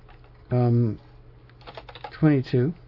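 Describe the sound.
Keys tapped on a computer keyboard while typing a date into a calendar converter program, a short run of light clicks set between low, humming voice-like tones.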